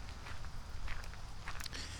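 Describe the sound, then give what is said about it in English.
Footsteps of someone walking around a building and a shed in the rain. The irregular, gritty steps are fairly faint, with a few louder scuffs scattered among them. “I'm walking around the building. I'm walking by the shed. I'm looking all around and underneath it.”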